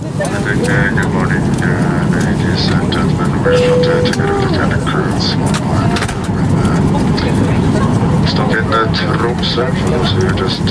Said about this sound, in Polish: Samolot właśnie zawisł nad Szarym Morzem.